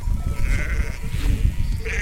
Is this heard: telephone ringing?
no